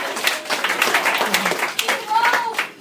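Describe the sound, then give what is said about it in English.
An audience claps and cheers for a bride-to-be at a wedding-themed gathering. The brisk, dense clapping runs under voices throughout. “Yay, give it up for Elizabeth.”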